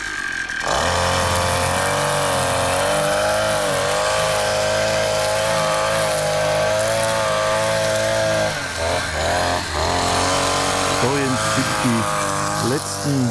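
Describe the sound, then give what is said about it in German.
A brush cutter mows the last grass blades with a loud, steady, high-pitched engine drone that holds for several seconds, then wavers and revs up in bursts toward the end. “die letzten Grashalme zu mähen. Hörschutz, Brille und los geht's.”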